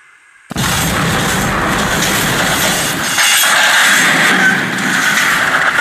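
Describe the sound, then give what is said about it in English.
Dramatized crash of an express train plowing through a wooden barrier and plunging into a ravine: a sudden, loud roar and rumble that starts abruptly and holds for several seconds, with no talk. “The express plowed through a wooden barrier and plunged into the ravine.”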